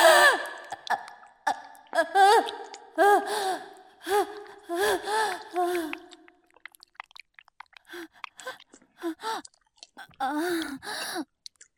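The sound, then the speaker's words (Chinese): Heavy panting of a mother out of breath from tidying up: many gasping, voiced breaths and sighs, dense and strong for the first six seconds, then sparser and quieter. “妈妈没事，只是收拾的累了，有点喘气。”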